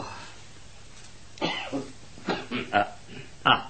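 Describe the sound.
Coughing from a man who is unwell: several rough, throaty bursts that come in uneven clusters, with a short throat-clearing quality. They sound over a quiet background, and no words are spoken.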